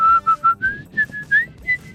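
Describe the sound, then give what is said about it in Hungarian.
A person whistles a short, clear tune, not directly into the microphone: a quick series of bright, sustained notes in a lively rhythm. The first few notes are lower and the following ones higher. “Mondjuk könnyebb, ha nem direkt a mikrofonba fütyülsz”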